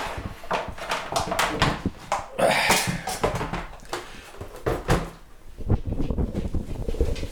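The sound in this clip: A VHS player is lifted out of its box, giving a run of handling noises: knocks, scrapes and rustles of varying strength, with a few sharper clunks.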